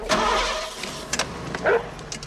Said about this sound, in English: All right, now start the car.